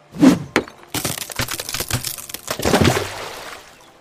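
A bridge cracks and splinters as a thrown stone hits it, breaking at the first touch. A sharp impact is followed by a dense run of crackling, snapping and breaking that gradually fades.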